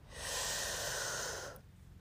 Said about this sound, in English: let's take 2 deep breaths. Breathe in